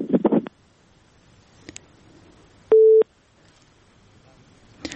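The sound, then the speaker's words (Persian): A single steady mid-pitched tone, like a busy signal, sounds once for about a third of a second after a phone-in caller's line drops. A short burst of voice-like noise comes before it, with a faint low hiss throughout. “متاسفانه که شنونده ما تماسشان قطع شد.”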